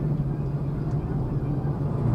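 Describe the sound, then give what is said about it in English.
Trucks on the road nearby give a low, continuous rumble with a steady humming engine tone. It stays fairly loud and unbroken throughout. “So, currently, pinaliligiran tayo ng mga trucks. We have to get away with the trucks.”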